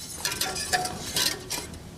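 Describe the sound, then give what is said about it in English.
A spoon stirs peanut sauce in a pot, making a few scraping, clinking strokes against the metal over a steady low rustle. “And then all you're going to do is stir it.”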